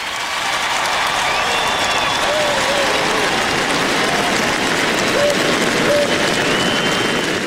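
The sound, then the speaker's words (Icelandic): Crowd cheering and applause outside a royal palace as members of the royal family step out onto the balcony: a dense, steady roar of clapping and voices that stays loud and unbroken throughout. “Marit drottning, Ingiríður Alexandra krónprinsessa og Sverri Magnús prins út á svalir konungshallarinnar og var fagnað ákaft, en mestu fagnaðalætin heyrðust þegar Sonja drottning kom út á svalir.”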